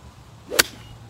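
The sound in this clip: A pitching wedge swung on a golf course, a quick rising whoosh that ends in one sharp crack as the club strikes the ball, alone against quiet outdoor background.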